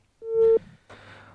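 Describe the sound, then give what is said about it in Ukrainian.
A phone busy signal after a dropped call: one steady, mid-pitched electronic tone that cuts off abruptly. A stretch of low line hiss and hum follows. “Зірвався телефонний дзвінок, абонента Київстар”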